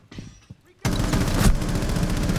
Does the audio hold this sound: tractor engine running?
no